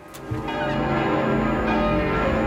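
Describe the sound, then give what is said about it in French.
Church bells ring in Paris, a dense, continuous clangor of overlapping tolling tones that swells after the first moment and holds steady to the end. “la radio vient de demander au curé de Paris de sonner les cloches”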